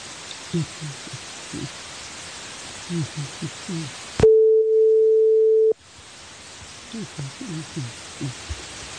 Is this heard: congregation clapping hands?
no